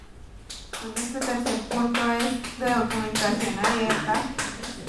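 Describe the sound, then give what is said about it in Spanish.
Rhythmic clapping from a crowd at a community culture forum: many sharp, evenly spaced claps keep a steady beat for several seconds, with voices sounding underneath. “Sigámosle el aplauso.”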